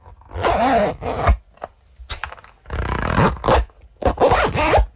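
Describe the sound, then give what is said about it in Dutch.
Zippers being closed: several loud, rasping zip strokes of varying length, some drawn out and some quick, separated by short pauses, with no voices. “Het dichtdoen van ritsen.”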